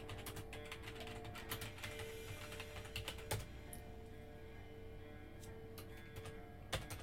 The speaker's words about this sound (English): Oh, well, I guess you have to type it in like this.